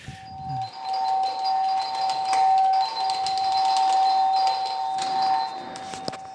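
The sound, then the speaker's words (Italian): A doorbell rings at a neighbour's door: a loud, steady electronic tone held unbroken for about five seconds, sounding alone with no voices. “lui il giorno dopo allora va a suonare al vicino, che non risponde, non esce.”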